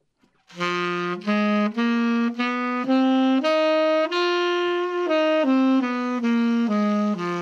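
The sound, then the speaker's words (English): A blues scale is played on a melodic instrument as a smooth run of sustained, bright, harmonically rich notes that climb in pitch and then step back down, without pauses and without voices. “So a blues scale would sound like this.”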